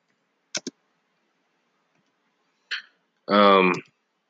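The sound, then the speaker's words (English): Typing on a computer keyboard: two quick, crisp key clicks in near silence, followed a moment later by a person speaking. “hold on, I'm trying to type something in.”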